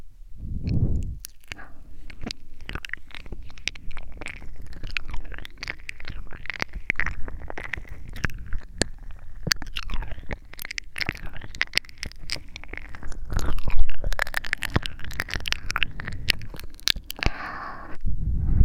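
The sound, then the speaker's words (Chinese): ASMR ear licking and rubbing produce many close, wet mouth clicks, smacks and squishy slurps, with soft rubbing scrapes between them in an irregular, continuous stream. “哥哥，要不要试试？一边舔耳朵。一边蹭蹭呀，”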